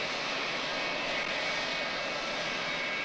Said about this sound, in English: He runs beneath the wing of a taxiing jet.